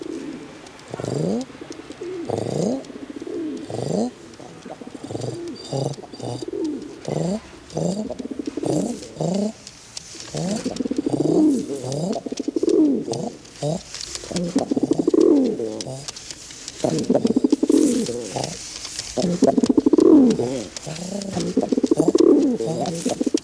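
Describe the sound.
Pigeons cooing: many soft, low, rolling coos repeat steadily in uneven bursts, with no talk over them.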